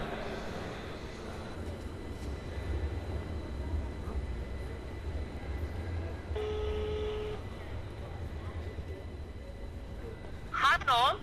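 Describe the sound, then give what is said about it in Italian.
A telephone ringback tone as a call is placed outside Florence's Santa Maria Novella station: a single steady tone lasting about a second, heard over constant background noise with voices. “loro si sono già trovati adesso tra pochi istanti li incontrerò anch'io. Li chiamo.”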